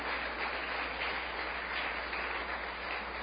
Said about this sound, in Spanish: Dale ese aplauso fuerte, aleluya.